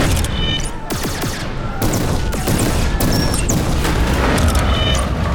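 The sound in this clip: Gunfire and explosions roar through a battle as retreating crawler creatures are blasted, a dense, unbroken barrage of rapid shots and heavy booms holding a loud, steady level throughout.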